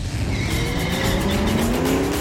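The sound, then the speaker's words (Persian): Car driving fast laps: a loud, steady engine roar with a rising whine as it accelerates, continuous from start to end. “این هفته هم سرمون گرم رانندگی بود که با این چند دور سریع بهتون نشون میدیم.”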